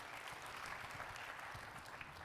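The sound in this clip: Faint, even applause from an audience at a talk: a soft, continuous wash of many hands clapping at a steady level, with no distinct claps or voices rising above it.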